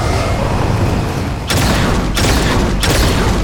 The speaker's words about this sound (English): Can you can you shoot that box?